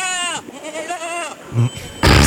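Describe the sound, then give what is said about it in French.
A goat bleats in a quavering, wavering cry, first a short call and then a longer shaky one, followed by a low thud and a loud noisy burst. “Voilà. C'était une chèvre.”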